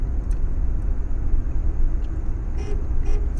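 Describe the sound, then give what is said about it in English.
A car horn gives a couple of short toots near the end, pressed by the driver from inside the vehicle over a steady rumble of the engine and road noise. “Like, I don't drive like this, but now I do because the friggin' horn's right there.”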